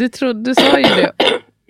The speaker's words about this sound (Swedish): Gud vad din hosta låter.